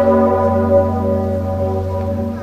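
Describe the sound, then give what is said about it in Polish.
A large, 500-year-old church bell that rings only rarely, sounding on a national armed forces holiday: a deep, loud, sustained toll rich in ringing overtones that slowly fades, with no talk. “Ja wiem, że ten dzwon bije bardzo rzadko, dlatego tutaj się cieszymy, że jesteśmy i mogliśmy być akurat w takim momencie.”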